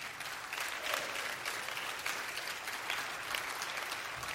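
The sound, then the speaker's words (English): Audience clapping for a children's minister at a church vacation Bible school: continuous, dense handclaps with small swells in loudness, sustained for over four seconds, with no talking. “She has worked hard all week. That's where you can clap your hands.”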